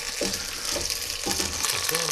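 Onion frying in a pan gives off a steady, dense sizzle, a continuous bright hiss that holds at an even level throughout.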